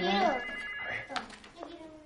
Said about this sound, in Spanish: El hombre del campo llama por el móvil.